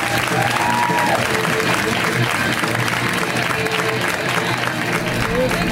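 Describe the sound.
An audience claps to welcome a comedian to the stage at a comedy show. The applause is a continuous, even wash of hand claps from start to finish, with crowd voices mixed in.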